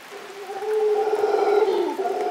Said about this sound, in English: Andrew Roth recorded these noisy primates